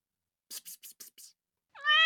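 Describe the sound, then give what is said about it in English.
A cat meows once near the end, a clear harmonic cry that rises at its start. Just before it come five short, breathy hissing bursts. “Here, kitty, kitty.”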